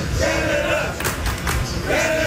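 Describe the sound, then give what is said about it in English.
Canadian soccer fans chanting in the streets of downtown Houston before their World Cup round of 16 match against Morocco, a loud, continuous crowd roar with sustained sung chant tones rising out of it at the start and end. “Those chants are filling the streets of downtown Houston”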